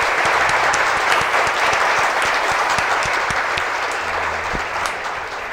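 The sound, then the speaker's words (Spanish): A crowd applauds a bar founder at a tribute event. The clapping is dense and sustained and eases slightly toward the end. “Un aplauso para Roberto Tito Morales”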